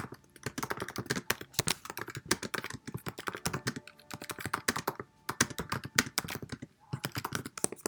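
Rapid typing on a computer keyboard while writing a reply to a professor: dense, uneven bursts of crisp key clicks running throughout, broken by only brief pauses, fairly loud and without speech.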